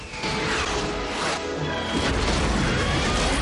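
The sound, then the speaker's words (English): Rockets fired from F-18 fighter jets explode against Godzilla. Heavy crashing blasts and rumbling booms merge into a loud, continuous barrage of impacts that never lets up. “Direct hit, but the target is still moving, sir. We'll circle around and fire again! The F-18s fire another onslaught.”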